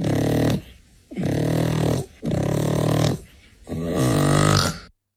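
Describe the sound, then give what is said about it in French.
A goat snores in four long, loud, rasping breaths separated by brief quiet gaps, the last one swelling stronger before cutting off abruptly. “Une chèvre qui ronfle.”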